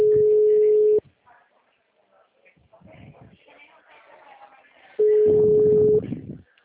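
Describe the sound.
Telephone busy signal: two long, steady mid-pitched tones, each lasting about a second, with people talking quietly in the gap between them.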